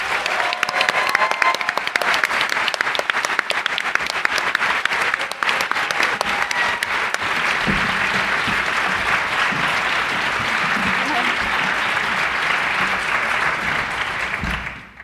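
A crowd applauds to welcome two sketch performers from Second City's ETC Theater onto the stage. The clapping is loud, dense and sustained, holds steady for a long stretch, then cuts off sharply at the end.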